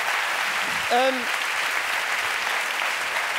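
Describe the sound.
Audience applause at a comedy show in Cologne: dense, steady clapping runs through the whole stretch at an even level, with a brief voiced cry rising out of it near the start.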